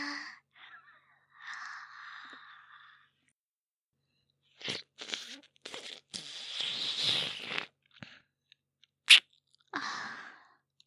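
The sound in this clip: Crunchy chewing as food is tasted: scattered bursts of crisp crunching, sparse and soft at first, then denser and louder in the middle, with a sharp snap near the end and short pauses between bites.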